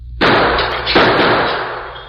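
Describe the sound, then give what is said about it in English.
A gunshot blasts the window glass of a dark store into pieces. Two loud, sharp bursts, the second about a second after the first, are followed by sustained crashing and rattling noise. “He shot the glass out of the window.”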